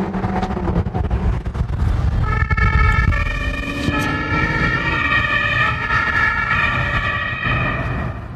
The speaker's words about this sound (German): Und Katharina mit Blaulicht und Martinshorn direkt hinterher.